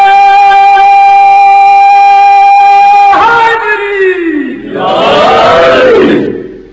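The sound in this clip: A single voice holds a long, steady call, then a crowd answers with a loud chanted slogan whose pitch drops. A second massed shout follows and fades out at the end.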